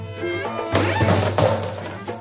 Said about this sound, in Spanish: Manolete se aproxima a una mesa donde hay una bandeja con polvorones y tropieza dejándola caer al suelo.